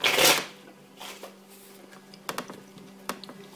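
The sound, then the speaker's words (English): Playing cards being handled and dealt out for initiative in a Deadlands Reloaded tabletop game: a brief papery riffle burst at the start, then a few soft flicks and snaps of cards landing, with no talk. “So let's deal out the initiative cards here.”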